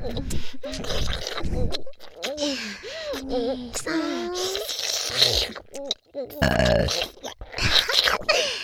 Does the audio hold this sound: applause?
no